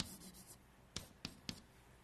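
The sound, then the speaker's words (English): Pen strokes drawing a circle on a diagram: faint, soft scratching that gives way to three short, sharp strokes in quick succession. “So we'll draw that maybe this way. We'll put our circle back here.”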